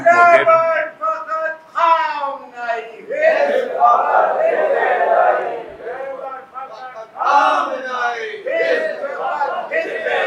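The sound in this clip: A crowd chants a slogan: many voices shout together in loud, rhythmic bursts, with a few brief dips between the phrases.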